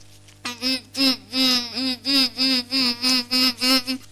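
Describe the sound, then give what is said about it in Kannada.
A human voice imitates a housefly's buzz in a series of short, buzzy, evenly spaced pulses at a steady mid pitch. “ನೊಣ”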